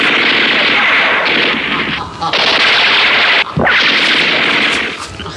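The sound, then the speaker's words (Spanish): Guards firing guns at shadows among trees: a dense, continuous barrage of loud gunfire with only a couple of brief dips, harsh and sustained throughout. “Jaciel y dos de sus guardias disparan contra las sombras de los árboles creyendo que Calimán está ahí”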